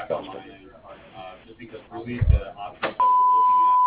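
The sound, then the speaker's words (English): A voicemail answering machine sounds one long, steady, mid-pitched beep, following a recorded greeting voice. “We're not able to answer your call at the moment, but please leave a message at the beep”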